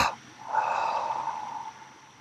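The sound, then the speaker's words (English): Breathing exercise with a double inhale through the nostrils and a double exhale through the mouth: a quick, sharp sniff at the start, then a long, soft, airy breath that slowly fades. “Right away, another one, double inhale nostrils. Hold, engage. Double exhale mouth.”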